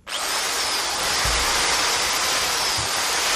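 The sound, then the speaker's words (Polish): An electric drill runs without pause, a loud, steady, high-pitched whirring hiss that lasts the whole clip, with two brief low thumps partway through. “To jest wiertarka.”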